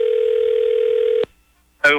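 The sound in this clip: A telephone tone opens a prank phone call, holding steady and mid-pitched for just over a second. It cuts off to brief silence, and then a voice begins.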